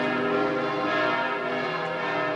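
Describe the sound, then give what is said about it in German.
Church bells ring to call worshippers to prayer, a sustained wash of overlapping metallic tones with long ringing partials, holding a steady level throughout. “Die Glocken rufen die Gläubigen zum Gebet.”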